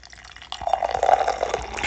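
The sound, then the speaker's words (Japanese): Beer poured into a Starbucks mug: after a brief quiet start, a steady liquid splash and gurgle begins and continues evenly to the end. “スタバのマグカップさんに注いでいきたいなというふうに思います”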